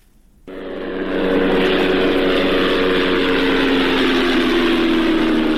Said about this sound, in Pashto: دا د هغه بی پیلوټ الوتکې ژغ دی چې پر افغانستان د طالبانو له حاکمیت څخه وروسته هم د غزنی ولایت تر څنګ د پکتیا، پکتیکا او ځینو نورو ولایتونو په هوا کې ګرځي.